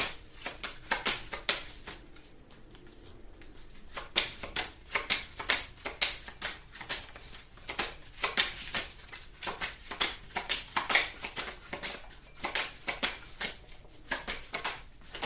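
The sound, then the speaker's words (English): Tarot cards are shuffled and drawn from a deck in a steady run of many crisp flicks, slaps and taps. The sound stays busy and fairly even throughout, with no voices. “May I have a card, please? Thank you. Ah, okay. May I have another card, please?”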